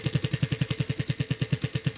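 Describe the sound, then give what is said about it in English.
A prize wheel spins at a riding-lesson giveaway, giving many rapid, evenly spaced dull clicks in a steady, unbroken rhythm at moderate loudness, with no voices. “All right, let's spin the wheel, see what Shaylee wins.”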